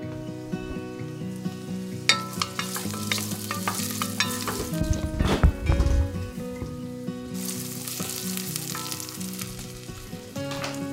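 Onions and garlic sauté in olive oil in a saucepan, giving a steady, bright sizzle throughout with occasional stirring clinks and a louder, busier burst of frying midway.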